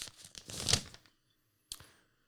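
A paper envelope is handled and opened at a sports awards announcement: about a second of dense papery rustling and crinkling that peaks in a sharp tearing swell, then a pause and one brief crisp rustle.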